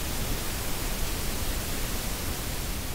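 Steady hiss of white noise like a television tuned to a channel with no broadcast. The static is continuous, dense and loud, with nothing else over it.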